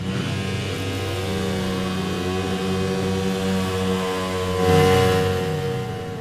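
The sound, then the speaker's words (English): A Ducati racing motorcycle doing a burnout in the winner's enclosure, its engine held at a high, continuous rev with a wavering pitch, then swelling louder in a brief surge near the end. “That is the sound of the Scars Racing Ducati being burned out in the middle of the winner's enclosure, and the fans love a bit of that, a bit of good smoke going around”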